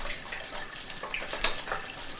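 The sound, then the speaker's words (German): Water runs and splashes in a bathroom as a piece of rubber is washed with soap, a steady faint rush broken by a few brief, sharper splashes. “kauert der Mann im Badezimmer und wäscht mit Wasser und Seife ein Stück Gummi.”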